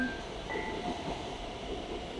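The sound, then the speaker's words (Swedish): A train arrives at a station platform with a faint, steady rolling rumble and brief thin squealing tones over it, continuous and without talk. “nu kommer tåget här så vi får vänta.”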